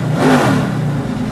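Trans Am race car engine revving hard during a lap, a loud, continuous, buzzing roar held at high revs for the whole short moment.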